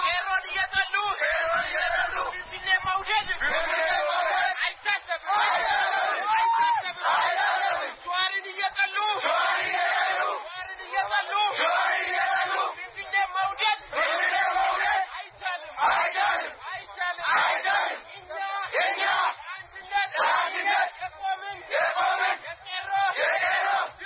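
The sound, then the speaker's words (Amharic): A festival crowd chants loudly in repeated rhythmic bursts, many voices shouting phrases of support and protest with brief gaps between each surge. “ድጋፍም ተቃውሞም የሚመስሉ የተለያዩ ድምጾች ተሰምተውበታል።”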